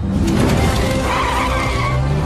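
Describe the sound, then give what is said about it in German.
A motorcycle skids out from under its rider and slides toward a wall: a loud, rough screech of sliding tires that runs unbroken through the whole clip, with no distinct impact standing out. “Und das Motorrad rutschte ihm unterm Hintern weg und fuhr gegen eine Wand.”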